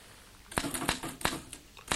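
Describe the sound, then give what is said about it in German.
Typing notes on keys, probably a typewriter: a quick series of sharp, crisp clicks at an uneven rhythm, moderately loud over a faint background hiss. “Was tippen Sie denn da? Ich mache mir nur ein paar Notizen.”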